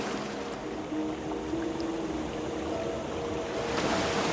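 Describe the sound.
Ocean waves washing in a dense, steady hiss and rumble, continuous and even with no distinct breaks.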